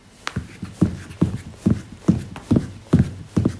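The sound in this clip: Rhythmic feet striking the floor while running in place during a lower-body exercise. Many steady, soft thumps land at an even jogging pace, with no other sound.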